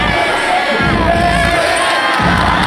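Football fans roar in celebration after Belgium beats the USA at the World Cup to reach the quarter-finals: a loud, unbroken wall of cheering and excited shouting from a large crowd.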